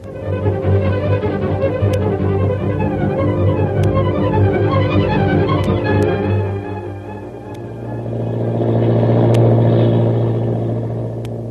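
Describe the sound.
An airplane engine drones in flight with a steady, low, rumbling hum and layered tones. It dips briefly, then swells again toward the end.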